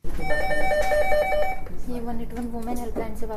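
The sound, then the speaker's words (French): A telephone rings at a regional government helpline in New Delhi, a bright, steady electronic bell lasting about a second and a half, after which a voice is heard over a lower background. “La nuit vient de tomber sur New Delhi et le 181, la plateforme téléphonique du gouvernement régional, résonne déjà du bruit des appels à l'aide”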